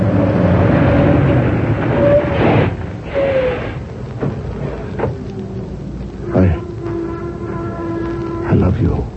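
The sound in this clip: A truck crashing into a car as a radio drama sound effect: rumbling engine noise under shouted voices, a sudden low sweeping impact, then a sustained horn-like tone before another burst.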